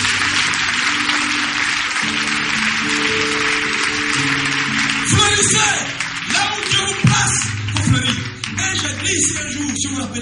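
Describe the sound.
Church audience applauding: a sustained wash of sound gives way to denser, sharper clapping in the second half, growing more uneven toward the end.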